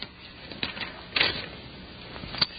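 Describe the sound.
Faint scratchy strokes of a marker writing on a board, a few short squeaky passes spread unevenly over a quiet background.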